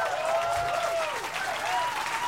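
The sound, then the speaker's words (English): Audience applause for a saxophone player, a full, sustained clatter of many hands at steady strength. “about a nice round of applause for Brother Johannes on the saxophone, ladies and gentlemen.”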